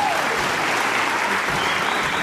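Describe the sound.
Applause from an audience rewarding a performer's skilful coordinated movements, a steady, dense wash of clapping that carries on without a break.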